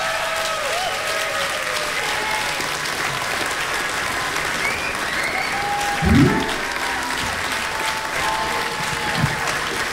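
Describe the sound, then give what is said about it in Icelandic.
Sustained applause from the audience at a blues festival concert greets a female blues singer, with steady, dense clapping that fills the whole clip at an even level. “gefi henni gott klapp”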